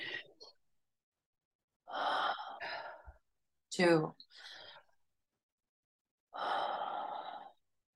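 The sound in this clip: Loud, breathy bursts of air during a guided breathing exercise, a slow deep inhale among a few separate breaths divided by silence.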